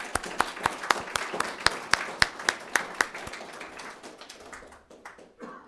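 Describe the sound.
An audience applauds to welcome a speaker at an evening event on indigenous cultural revitalization. Sharp, evenly spaced claps keep a steady rhythm, then grow softer and sparser until they fade out.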